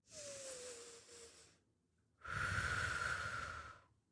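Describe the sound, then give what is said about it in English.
A deep breath: a long, airy inhale, a short pause, then a louder and fuller hissing exhale. “I can take a deep breath.”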